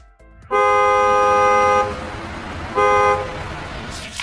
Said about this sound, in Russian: Автомобиль сигналит. Би-би.